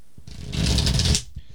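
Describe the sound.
A deck of tarot cards being shuffled gives one papery riffling flutter lasting under a second, moderately loud, with quiet gaps before and after.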